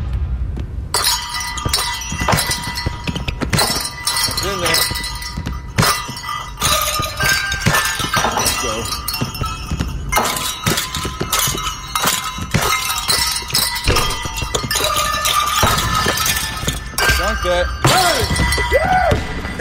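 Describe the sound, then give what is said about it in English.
Basketballs dribble and bells jingle on hoop nets in a dense, continuous wash of bright metallic jingling and clanging. Sharp, busy hits run throughout at a steady, loud level. “Some dribbling basketballs and jingle hoops.”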